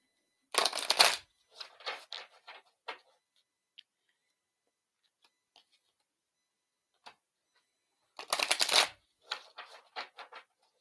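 Shuffling of a Whispers of Healing oracle card deck, a brief riffling burst followed by a few light taps and ticks, then a second riffle and more taps near the end.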